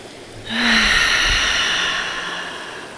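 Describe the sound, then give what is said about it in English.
A deep breath taken during a guided breathing exercise: one long, airy breath that swells quickly and then slowly fades, heard alone without talk. “Take a couple deep breaths, maybe your first deep breaths of the day.”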